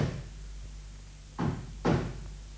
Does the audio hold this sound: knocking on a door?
yes